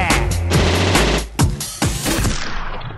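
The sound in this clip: Machine gun fire sound effect: a loud, dense barrage of rapid shots with a few sharper bursts standing out.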